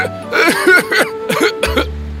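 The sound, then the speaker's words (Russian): Coughing from a tree character in an animated fairy tale, caused by dirty air: a run of several rough, throaty coughs in quick bursts, fairly loud and alone. “Ты кашляешь, друг?”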